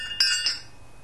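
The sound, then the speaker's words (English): Crystal decanter clinking: two bright, high-pitched glass chinks in quick succession, each ringing briefly before fading. “Here's the sound of the crystal decanter.”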